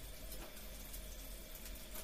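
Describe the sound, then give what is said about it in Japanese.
A shower running at a comfortable temperature, heard as a faint, continuous hiss of spraying water that stays even and unbroken throughout. “じゃあシャワーに行くぞ。ちょうどいい温度になったな。”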